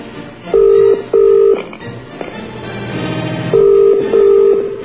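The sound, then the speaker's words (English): English double-ring tone heard on an overseas telephone call: two pairs of short, steady buzzing tones separated by a longer pause, over a low background murmur. “You can't even get an overseas call now. Mm. Oh, there we go. There's an English ring.”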